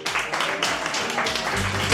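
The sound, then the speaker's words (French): A live audience claps for Colombian coffee in an applause-meter vote, a continuous, dense burst of crowd applause that holds steady at a strong level. “Et à l'applaudimètre. Ouais, donc, oui, à l'applaudimètre. Qui applaudit pour le café colombien?”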